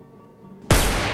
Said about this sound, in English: Private investigator shoots a hole through the partition wall.